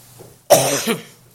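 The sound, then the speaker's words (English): A single sharp, throaty cough bursts out of near silence and trails off over about half a second. “Now, that's my first cough. We know I always have one”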